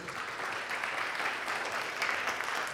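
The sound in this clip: Audience applause welcomes a speaker to the stage, a dense, steady wash of clapping that holds at an even loudness throughout, with no voices standing out.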